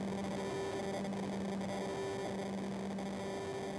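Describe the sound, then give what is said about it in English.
Distorted droning music: a quiet, unbroken wash of hissing static with low sustained hum tones held steadily beneath it. “More distorted drones.”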